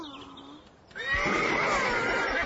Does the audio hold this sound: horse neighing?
yes